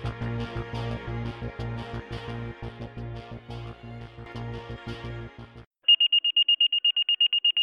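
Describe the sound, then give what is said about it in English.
A fire station dispatch alert tone sounds as a rapid run of short, high, even beeps, loud and steady, beginning right after a rhythmic musical passage cuts off. “The tone sound and the dispatcher announces stations 14 and 16, working residential structure.”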